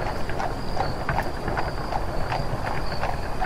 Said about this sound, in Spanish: Mira, ahí viene un carruaje. Debe ser alguien importante y, parece que tiene prisa.